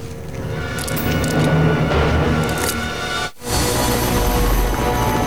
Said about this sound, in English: The chopper comes into land beside the devastated church.